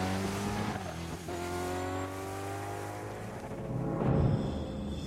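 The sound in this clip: Engine of a robotic motorbike riding along a road, a droning, whining motor tone that shifts in pitch as it runs and swells louder near the end, with no voices.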